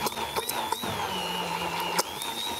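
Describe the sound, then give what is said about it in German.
An immersion blender purees tuna sauce with a steady, high motor whine and a low hum underneath, broken by a few brief bursts as the blade works through the mix. “Jetzt das wichtigste Gerät in der Küche, da ist es, der Pürierstab. Und dann wird das Ganze erstmal fein püriert.”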